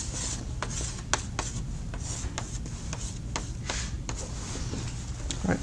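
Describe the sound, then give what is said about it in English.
A diagram is drawn on a board in many quick, scratchy strokes. The rubbing comes in short irregular bursts, with no one talking. “So let's draw this again over here.”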